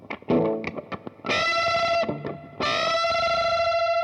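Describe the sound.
Distorted electric guitar with heavy effects plays a few short choppy stabs, then rings out in two long sustained notes, the last one a unison bend.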